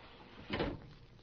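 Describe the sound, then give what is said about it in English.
A window being shut, heard as a single soft, muffled thud that stands briefly above a faint, steady background hiss. “The window's open. Do you mind if I close it? Why don't you?”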